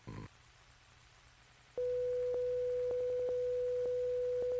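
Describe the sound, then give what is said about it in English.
A 500-cycle sine wave test tone sounds as a pure, steady mid-pitched hum. It follows a brief burst and a stretch of near-silence, then starts abruptly and holds evenly to the end, broken by a few faint clicks. “This simple 500 cycle tone can be represented by a sine wave.”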